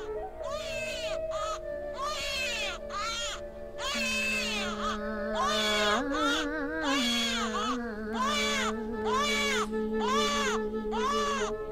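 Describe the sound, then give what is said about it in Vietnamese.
Eerie child crying in a horror setting: repeated wailing cries that rise and fall in pitch, each separated by short pauses, over a steady low drone. “thì tiếng trẻ con khóc ở đâu đây vang vọng”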